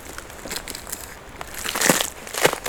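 Crunching on an icy road in the Hautes-Pyrénées mountains: a series of dry, crackling crunches of different strengths, growing louder toward the end. No one speaks.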